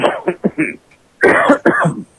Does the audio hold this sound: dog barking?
no

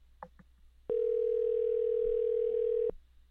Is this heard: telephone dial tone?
yes

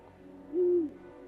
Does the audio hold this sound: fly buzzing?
no

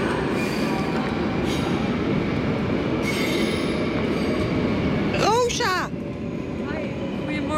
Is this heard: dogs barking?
no

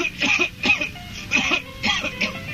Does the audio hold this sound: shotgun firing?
no

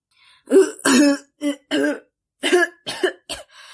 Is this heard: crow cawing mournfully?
no

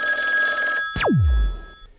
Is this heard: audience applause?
no

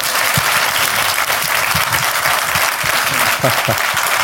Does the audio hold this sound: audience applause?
yes

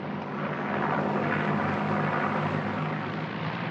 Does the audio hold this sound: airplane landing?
yes

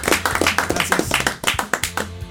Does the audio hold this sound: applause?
yes

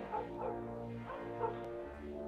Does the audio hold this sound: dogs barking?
yes

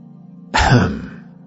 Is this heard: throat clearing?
yes

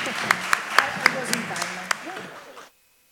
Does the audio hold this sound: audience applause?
yes

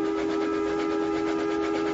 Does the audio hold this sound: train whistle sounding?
yes

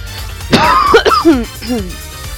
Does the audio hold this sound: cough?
yes

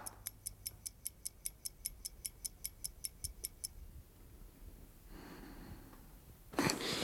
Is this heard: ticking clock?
yes

